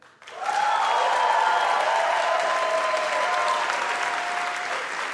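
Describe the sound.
Audience applause at a live show for Steve Levitt, a dense burst of clapping that rises quickly, holds steady for several seconds, then eases slightly at the end.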